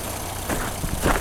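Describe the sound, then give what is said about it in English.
A Jeep's 4-liter engine runs with a steady, rough drone and low rumble while the 5-speed Jeep is being driven, a dense noisy hum that holds throughout with slight swells near the end. “Oh, just listen to that 4-liter purr under hood. Oh, it's good. Oh, just listen to the shifts of this 5-speed. Oh, this Jeep is glory.”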